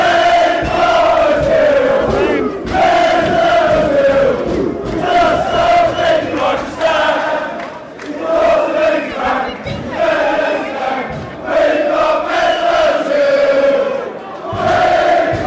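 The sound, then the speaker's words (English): Arsenal fans sing together inside the stadium before a match, a loud, dense crowd chant that rises and falls in rhythmic phrases throughout. “We're in the stadium itself. The Arsenal fans are singing, and you'll be able to hear the exact moment the batteries conk out on the recorder.”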